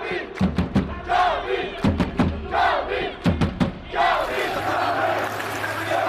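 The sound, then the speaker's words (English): A loud crowd chants and roars in an esports tournament arena during a tense match, with repeated bursts of rhythmic thuds from clapping or stomping, then a sustained, dense roar. “I wasn't joking when I said the noise in here was like a football match. Just listen to that atmosphere.”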